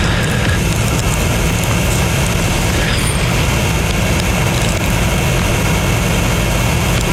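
Mechanical lure hare running at a greyhound race sprint, a loud, steady mechanical drone with a deep low rumble that holds without a break throughout.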